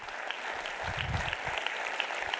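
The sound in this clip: Applause from a church audience welcoming an Assemblies of God missionary speaker at a morning service: a dense, continuous patter of many clapping hands that holds an even loudness throughout.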